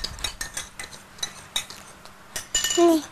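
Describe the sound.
A spoon stirring milk in a glass makes many quick, light clinks in an uneven rhythm. The stirring ends in a louder ringing scrape against the glass.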